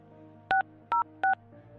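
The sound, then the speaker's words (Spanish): Three short telephone keypad DTMF tones, each a clear two-pitched beep, as a call is dialed from another line, spaced evenly apart over a faint steady hum. “déjame te marco de otra línea, ¿eh? Déjame usar esta línea para que no salga privada la llamada”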